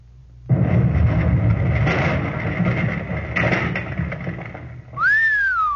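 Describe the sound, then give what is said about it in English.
A satchel charge explodes and blows up a cottage. A sudden loud blast rolls into a long, rumbling roar of about four seconds, followed by a high whistling tone that rises and then holds. “So that's what a satchel charge does, eh? Look at that cottage. Where the heck is it to look at? Round to smithereens.”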